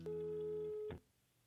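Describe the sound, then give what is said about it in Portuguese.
A ringback tone on an outgoing phone call: a single steady, mid-pitched tone lasting just under a second, fairly quiet overall, then the line drops to a low hiss. “vou ligar para ele”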